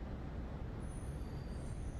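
A blue jeep drives off with a dense, steady low engine and road rumble that stays level from start to finish, with no voices.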